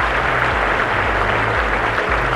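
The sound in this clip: Applause, a thick, even patter of many clapping hands sustained across the whole clip, with a low droning tone shifting underneath.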